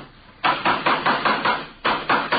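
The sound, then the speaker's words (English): Hammer blows ring out while a wooden coaster is being built, a quick even run of sharp knocks, a brief pause, then a few more strikes at the same brisk pace. “Say, would you hand me that hammer there, officer?”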